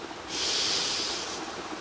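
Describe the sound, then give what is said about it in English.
A deep, cleansing breath in during a guided breathing exercise: a single airy inhale of about one second that swells quickly and then fades, with no talk. “So let's take a deep breath together, shall we? A deep cleansing breath in.”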